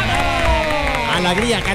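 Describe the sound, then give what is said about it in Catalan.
A cheering crowd sound effect rises briefly on a Catalan morning radio show. Dense crowd noise runs through the whole short burst, mixed with voices. “Un aplaudiment, sisplau, vinga!”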